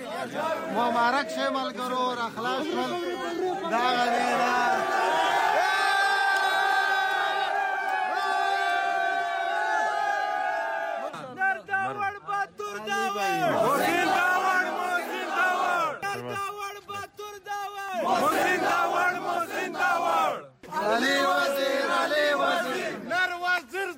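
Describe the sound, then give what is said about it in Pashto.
Hundreds of Pashtun Tahafuz Movement supporters chant loud, emotional welcome slogans outside Bacha Khan airport in Peshawar. Massed voices rise and fall in sustained cries, with brief pauses and swells of cheering. “د ایف ای ای له خوا د خوشی کولو وروسته د پیښور باچا خان هوایی ډګر نه بهر راجم شو د پښتون تحفظ موومنټ په سلګونو پلویانو د دوی هرکلی په دې جذباتي غږونو سره وکړلو.”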